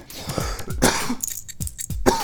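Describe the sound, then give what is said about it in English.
A slight coughing fit: several harsh coughs and throat clearings in a short irregular burst, moderately loud. “Excuse me for a second. Having a slight coughing fit here.”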